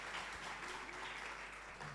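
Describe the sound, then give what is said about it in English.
Audience applause welcoming debaters onto the stage at a debate in Ghana: a steady, fairly soft wash of clapping that holds an even level for the whole stretch, with no voices over it. “Keep clapping as they join us. Keep clapping as they join us.”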